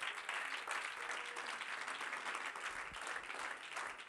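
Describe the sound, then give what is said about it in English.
Steady applause from a church audience clapping their hands in praise, dense and continuous at an even level for the whole stretch, with no voices standing out. “if you believe that, would you clap your hands to the Lord?”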